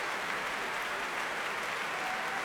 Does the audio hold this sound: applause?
yes